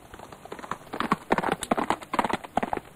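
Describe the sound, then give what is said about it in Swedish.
Horse hooves clip-clop as a rider sets off on horseback: a quick, steady run of sharp hoofbeats at moderate loudness. “Och sen red hon söderut, utklädd till man.”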